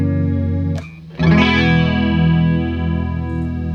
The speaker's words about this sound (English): It's a very eccentric chorus. It's very odd.